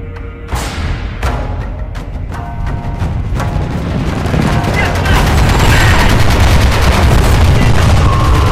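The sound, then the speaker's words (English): Warship guns firing in a battle begin with a few sharp, separate blasts, then swell into a loud, continuous roar of rapid, overlapping gunfire. “On deck, every gun opens up, lending their cackling voices to the insane, ear-splitting chatter.”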